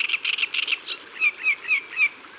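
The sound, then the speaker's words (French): A reed warbler sings among reeds, first a quick run of harsh chattering notes, then four evenly spaced, clearer high chirps, with no voices. “Écoute, tu la reconnais ? Bien sûr. C'est la rousserolle de l'histoire.”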